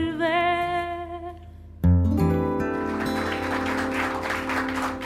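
Audience applause after a live song, rising abruptly as the closing music fades and continuing as dense, steady clapping over lingering sustained tones.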